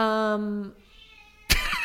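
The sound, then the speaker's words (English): A female house cat gives one long, unusual-sounding meow that is strong and tonal at first, then trails off quietly. A sudden broad burst of noise follows near the end. “What a freakish meow you have. No, that's a wonderful cat. That is music to my ears to hear that cat meow.”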